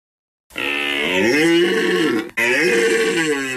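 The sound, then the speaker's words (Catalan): A deer stag bellows during the autumn rut in the Pyrenees. Two long, loud, harmonic roars with a grunting quality are separated by a brief break, the first lasting almost two seconds. “És la brama del cèrvol.”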